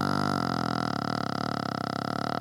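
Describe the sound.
A long, drawn-out burp, low, buzzy and steady for over two seconds, heard alone without talk.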